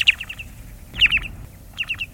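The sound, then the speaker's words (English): Short-billed dowitcher, a shorebird, giving its mellow call in three brief bursts of quick, soft notes separated by short pauses. “And now, the low, mellow call of the short-billed.”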